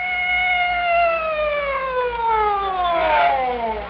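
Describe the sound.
A police siren sound effect wails steadily and loudly, each cry gliding downward in pitch, with bright, layered overtones and no voices over it.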